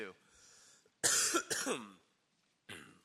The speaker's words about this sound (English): Excuse me, I'm getting over a cough.